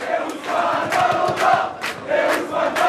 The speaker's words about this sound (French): C'est la fin de la séance de tir au but, ça se joue maintenant. Entendez le chant des supporters de cette petite rue Raymond Losserand dans le 14e arrondissement. On est comme au stade.